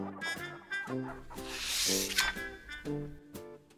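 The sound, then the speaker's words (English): Chickens cluck in a pen at a farm, repeated short throaty clucks in a loose rhythm, with a brief breathy hiss midway and no talk. “The farm had chicks to sell. It had chicks in a pen.”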